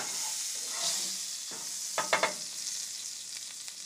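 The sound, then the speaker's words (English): Potatoes sizzling as they cook in a pan, a steady bright hiss broken by a few sharp stirring scrapes near the middle. “Or as we say, potatoes. Cooking them up. Cooking up potatoes.”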